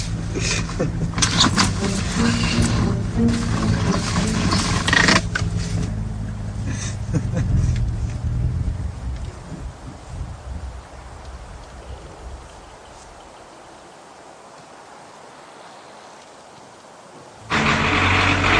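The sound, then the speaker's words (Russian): A car arriving, with a steady engine rumble that is loud at first, then gradually dies down to near quiet before a sudden burst of noise at the end. “Вон, машина уже приехала.”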